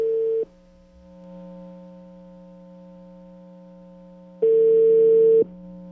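A telephone ringback tone plays while a call is being placed: a steady mid-pitched beep cuts off at the start and sounds again about four seconds later, with a constant low hum between the tones.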